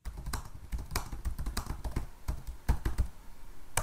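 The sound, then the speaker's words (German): Keys clatter on a computer keyboard as a search term is entered into a large photo database, a brisk, irregular run of many sharp taps with brief pauses, heard alone. “Bildersuche in einer großen Fotodatenbank. Ich gebe den Suchbegriff Chefin ein.”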